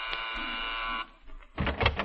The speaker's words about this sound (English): I'll ring the buzzer.